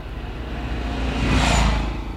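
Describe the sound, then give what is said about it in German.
A car drives past as a broad, rushing engine roar that swells steadily to a peak and then eases slightly, with no voices over it. “Achtung, da kommt das Auto.”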